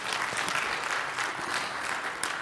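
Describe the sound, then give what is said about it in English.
Listeners at a sermon break into applause, a thick, sustained patter of many hands clapping at a steady moderate level throughout. “Come on, you can go ahead and applaud.”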